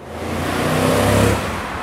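Street traffic as a car passes: a loud, steady engine and road rumble swells to a peak, then eases off slightly toward the end. No voices are heard.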